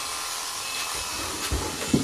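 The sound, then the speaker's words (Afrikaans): A steady, broad hiss of air blown through an electric shaver to clean it, holding level throughout with a couple of brief low thumps near the end. “blaas sy skeerapparaat skoon”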